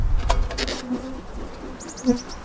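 Honeybees drone at an open beehive while a queen excluder grid is fitted, a low, steady buzzing hum with a few louder passes, and a short run of high bird chirps near the end.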